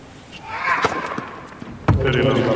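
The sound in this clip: A tennis serve strikes the T at a critical stage of a match, with two sharp ball impacts standing out under steady commentary voices.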